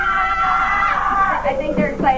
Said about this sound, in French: Il va crier, là, c'est le meilleur bout. Cri de victoire.